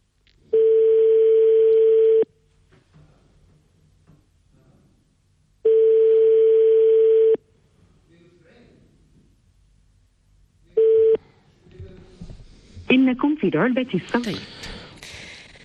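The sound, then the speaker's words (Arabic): Ringback tone on a phone call to the regional health director in Marrakesh: long, steady low buzzing tones, two full rings and a third cut short, then a voice speaking. “غادي نعيطوا لها دابا مباشرة هذا التليفون كيسوني”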